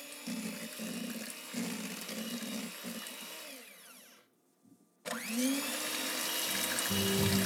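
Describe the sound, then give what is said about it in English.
An electric mixer beating key lime pie filling gives a steady whirring motor drone with a bumpy, churning pulse, cutting out briefly before starting up again slightly louder. “Okay, so here we go. Let's beat up this filling.”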